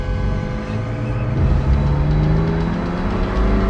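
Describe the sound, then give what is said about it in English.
A car engine roars as the vehicle speeds off down a street. The low rumble swells louder partway through and then holds a strong, steady drone. “He glances around, then drives up beside the SUV and stares over at a blurred body slumped over the steering wheel. He speeds off down the street.”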